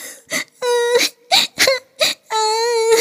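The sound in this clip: A child crying after tripping and falling: six bursts of wailing sobs, two of them long and drawn-out, broken by short gasping pauses.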